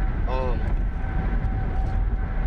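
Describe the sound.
Steady engine and road rumble inside a moving car, a continuous, fairly loud low drone that stays even throughout.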